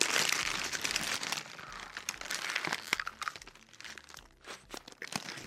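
Crunchy bites into deep-fried tofu with a crisp batter coating, many crackling crunches in an uneven rhythm, fairly loud, with no talk.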